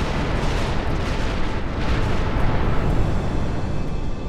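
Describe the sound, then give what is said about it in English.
A heavy, continuous roaring rumble stands in for the blast of an exploding star, dense and unbroken at a steady loudness for the whole stretch, with no single distinct bang and no voices. “to the apocalyptic blast of an exploding star”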